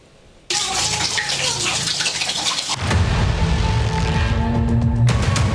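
Water pours heavily through a collapsed ceiling in a third-floor flat of a 12-storey building after days of rain, a loud, steady gushing roar that swells heavier partway through.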